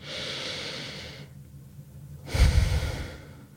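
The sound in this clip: Slow deep breathing, a long airy inhale followed after a brief pause by a fuller, louder exhale with a soft low rush, steady and unhurried with no speech.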